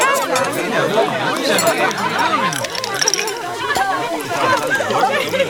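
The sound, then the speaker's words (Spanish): Sounds of an ordinary dinner: many overlapping voices chatter continuously while cutlery and glassware clink now and then beneath the conversation. “Seguramente estos te parecieron sonidos de una cena cualquiera, pero si todos te sonaron familiares, hay algo que dejamos de escuchar.”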